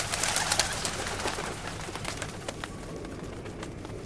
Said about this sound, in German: Gut, dass es immer noch Tauben gibt, die nicht vor den Bomben und den Granaten geflohen sind. Die sind geblieben.